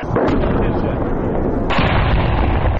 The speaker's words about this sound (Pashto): دا هغه ډی سي توپ دی